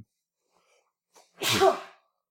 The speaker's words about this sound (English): I sneezed